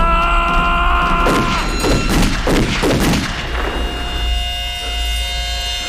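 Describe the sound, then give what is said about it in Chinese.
A volley of gunfire follows the commands to load, aim and fire: several quick, rough bursts in close succession over a steady low hum, then the hum carries on alone. “准备上膛，瞄准，开枪。”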